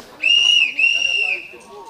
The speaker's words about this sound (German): Also die Pfeife der Lokomotive dient ja mehreren Sachen. Zum einen erstmal ist es ein Warnton.